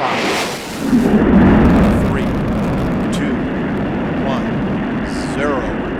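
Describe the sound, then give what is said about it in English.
A deep, rolling roar from Space Shuttle Atlantis lifting off on a mission to the International Space Station: a loud, continuous low rumble that surges early and then holds steady, with a voice faintly audible over it. “Liftoff of Space Shuttle Atlantis on a mission to build, resupply, and to do research on the International Space Station.”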